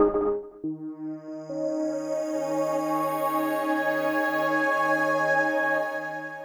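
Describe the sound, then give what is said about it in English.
Ambient synthesized texture from an audio system test: a steady, layered drone of sustained harmonic tones with a low hum underneath, holding at an even level throughout with no voices. “Initializing audio system test sequence in 3, 2, 1. Ambient textures, initiate.”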